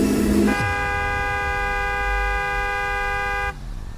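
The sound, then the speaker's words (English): A car horn honks once in a single long, steady blare of about three seconds, a held tone rich in harmonics that cuts off abruptly as a car drives past along a street. “The honk of a car horn made my eyes shoot open.”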